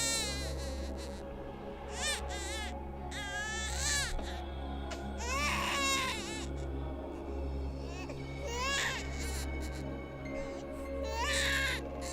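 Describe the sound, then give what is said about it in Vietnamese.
Shrill, piercing crying of a baby, rising in repeated high wailing bursts with short breaths between, over a steady low hum, in the yard of an ancestral hall. “Bỗng nhiên có tiếng khóc của trẻ con ré lên. Tiếng khóc nó như xoáy vào màng nhĩ ghê rợn.”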